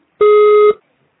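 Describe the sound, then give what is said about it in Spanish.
A voicemail beep sounds once: a single steady electronic tone lasting about half a second, alone in silence. “Tu mensaje, por favor, deja tu mensaje después del tono.”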